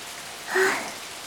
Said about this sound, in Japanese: こう大雨じゃ商売やがったりよ。もう今日は早じまいにするかね。 この雨、止む様子がないです。